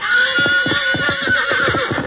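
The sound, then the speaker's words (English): Neighing and whinnying from a fiery three-year-old stallion, a loud run of repeated harsh, rising and falling calls with pulsing rhythm, alone with no talk. “Restraining bars and men who threw ropes were all the fiery three-year-old stallion had ever known.”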